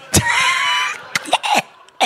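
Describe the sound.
A voice imitates a throat being cut during a live retelling of a shipwreck mutiny. It makes a strained, gurgling vocal sound, then a few short, sharp rasping bursts, loud and close.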